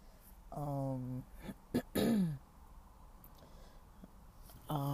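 Throat clearing from a person with sinus and throat trouble after a heavy, oily meal. A few raspy, voiced clearing bursts, some with a low humming tone, are separated by short pauses and stay fairly faint.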